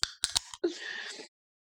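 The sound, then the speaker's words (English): A beer can opened: a few quick metallic clicks as the tab is worked, followed by a short, bright fizzing hiss lasting about half a second, then silence. “I drank. I drank. Actually, I better open another can.”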